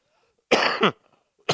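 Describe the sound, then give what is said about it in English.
Harsh coughs from a person speaking during a talk: a loud, rasping double burst, then a short quiet gap and the start of another cough cut off at the end, with no speech. “Excuse me if I have to cough a few times.”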